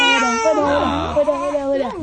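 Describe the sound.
A baby cries in a short fussy bout of high, wavering wails that rise and fall continuously for about two seconds.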